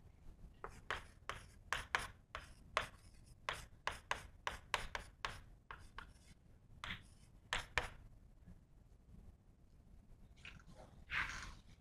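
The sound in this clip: Writing on a board during a physics lecture, heard as many quick scratchy strokes. The strokes come in rapid bursts, break off for a short pause, then resume with a few more strokes.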